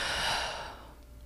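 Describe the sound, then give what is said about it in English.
A speaker out of breath in a dorm room lets out one heavy, breathy exhale that starts loud and hissy and slowly fades over about a second. “sorry, I'm out of breath.”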